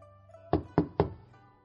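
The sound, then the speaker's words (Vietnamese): Three knocks on a door, sharp and evenly spaced, in a quick series against near silence. “lại truyền đến tiếng gõ cửa”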